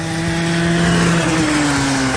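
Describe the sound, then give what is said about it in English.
Go-kart racing around the track at Leisure Park in Sedalia: a loud, continuous engine drone holds steady, with the pitch shifting slightly upward partway through and no talk. “Burn rubber as you go around the track in a go-kart race.”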